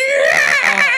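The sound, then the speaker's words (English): A man's voice imitates the strained, high-pitched scream of the villain Captain Love from The Mask of Zorro, a single wavering cry held for about a second, loud and alone. “the way I fucking hate Captain Love's scream where he's like,”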